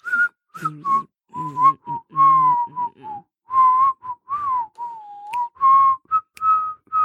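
Someone whistles a tune alone: a long run of clear, breathy notes, some short and some held with a slight wobble, mostly in one middle-high register with small steps up and down.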